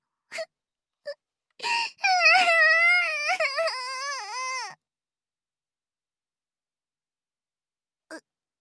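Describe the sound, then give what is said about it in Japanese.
A child cries in a drama scene. A few short sobs and gasps lead into a long, wavering, high wail that then breaks off. After a silence there is one last brief sob. “嘘泣きじゃないもん。”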